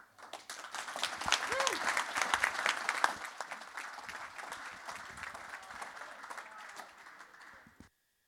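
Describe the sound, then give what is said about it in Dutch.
Warm audience applause welcoming musicians on stage at a jazz concert: fairly quiet, dense clapping that swells over the first seconds, holds steady, then stops abruptly near eight seconds. “Geef ze een warm applaus.”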